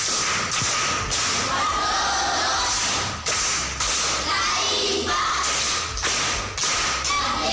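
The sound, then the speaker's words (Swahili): An audience claps for a pupil at a school quiz, with sharp rhythmic bursts of unison clapping falling in repeated groups over a background of crowd noise. “Makofi kwa mjomba.”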